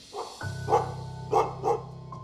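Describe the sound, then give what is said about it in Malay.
Dogs bark back and forth in a few sharp, irregularly spaced barks over a steady low hum. “Salakan anjing mula bersahutan,”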